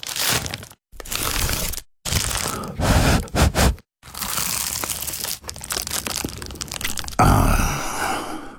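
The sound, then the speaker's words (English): Crisp, crunchy bites into an award-winning pie, heard alone as a series of crunching, crackling bursts separated by brief pauses, with a louder, denser crunch near the end. “That was the sound of an award-winning dad's pie. Your mouth can take it from here.”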